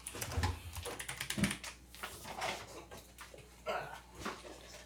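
Fingers type on a computer keyboard in a rapid, uneven patter of many quiet keystroke clicks.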